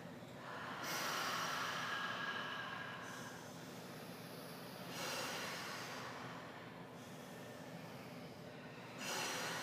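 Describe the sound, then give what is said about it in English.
A group exhales through their mouths during an exercise class, a few long, breathy rushes of air swelling and fading over a steady low background, with no talking. “So everybody breathe out of your mouth for your exhales. Right here, breathe it out.”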